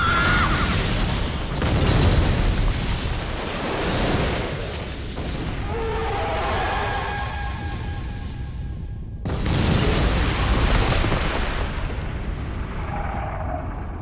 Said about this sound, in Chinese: 长距离破坏加农炮，开火！